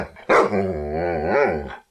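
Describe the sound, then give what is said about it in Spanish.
A single dog bark that runs into a drawn-out, voiced growl lasting under two seconds, low and loud, with a brief upward swell near the end before stopping abruptly. “¡Estás molestando a mi perro!”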